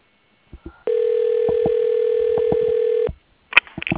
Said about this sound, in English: Please hold while your call is being transferred to Mary Herrera.